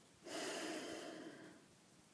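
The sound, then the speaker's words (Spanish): A single soft inhale through the nose, faint and breathy, rising quickly and then holding steady for about a second and a half. “La nariz, respirar, inspirar, inhalar y”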